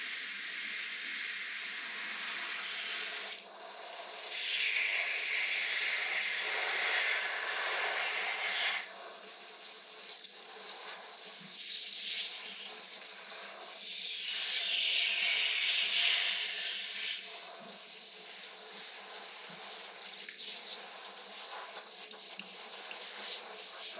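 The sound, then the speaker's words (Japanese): Lukewarm shower water runs steadily as someone is showered, a continuous broad hiss with slight surges and one brief dip near the start, with no voices. “じゃあシャワーかけていっとばい。”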